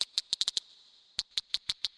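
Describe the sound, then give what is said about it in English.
Sharp clicking pulses of whales communicating in the deep sea, Clarion-Clipperton Zone, come in two rapid bursts of bright, evenly spaced clicks separated by a short silent gap, with no voices present. “For those animals, like whales, that use sounds like this to communicate,”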